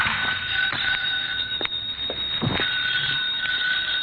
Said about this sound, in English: My phone was ringing when I got there.